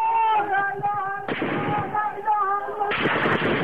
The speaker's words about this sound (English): Security forces also shot at demonstrators in Damascus today.